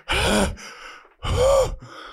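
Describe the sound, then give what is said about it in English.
Heavy, out-of-breath gasping from a man: two loud, sharp breaths separated by a short pause, each trailing into a softer breathy exhale. “Why are you so out of breath, man?”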